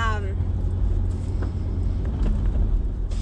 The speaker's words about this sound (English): But now I am driving to go to the pet store.